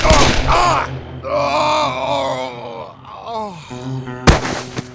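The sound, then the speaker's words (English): A single loud, sharp gunshot is fired at a man in a muddy street near the end, after a stretch of drawn-out vocal groaning. “He carefully aimed the gun squarely at Caphorn's chest and softly squeezed the trigger.”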